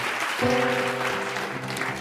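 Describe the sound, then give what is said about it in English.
Studio audience applause on a quiz game show, a steady wash of dense clapping that holds at a fairly even, moderate level throughout. “And we applaud that.”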